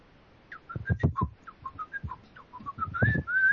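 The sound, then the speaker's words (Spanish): Someone whistles a melody in a string of short, clear notes that step up and down in pitch. Longer held tones come near the end, over soft low thumps. “ese silbido ya cambia la cosa. Ahí hay melodía, hay ritmo, hay altura.”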